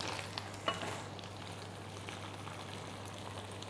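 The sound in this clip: Red chili and basil leaves stir-frying in a hot pan: a steady, dense sizzle that holds at an even level throughout, with one brief sharp crackle early on and no voices.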